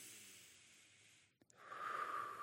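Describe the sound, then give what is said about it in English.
A person taking a deep breath: a long, airy inhale, a brief silent pause, then a stronger, rushing exhale. “I need to take a deep breath.”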